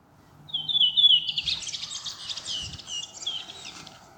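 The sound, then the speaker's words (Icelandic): A thrush sings a short phrase: a clear whistled note, then a rapid, scratchy twittering run, heard alone over a quiet background. “Þessi þröstur sleppir fyrsta atkvæðinu, þannig að bíðum verður að bíðum.”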